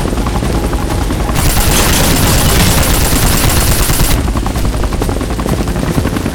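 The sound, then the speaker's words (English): A Navy Seahawk helicopter's rotors thundering as the chopper lifts into the air: loud, dense, rapid chopping throughout, turning harsher and brighter through the middle stretch before settling back. “Pilot fed fuel to the rotors and lifted the Navy chopper into the air”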